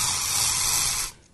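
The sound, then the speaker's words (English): A single short spray of Cashmere Woods aerosol air freshener gives a sharp, even hiss lasting about a second before stopping. “I was introducing how I accidentally found my new scent for 2017. And sure enough, 365 days later, I'm still spraying my house and this studio when I'm in here,”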